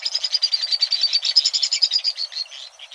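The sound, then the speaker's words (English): A white-throated swift calls in a rapid, high twittering trill. Many sharp chirps run together in a steady, pulsing series throughout, with no other sounds. “Flying at tremendous speed, the white-throated swift is indeed swift, among the fastest of all birds.”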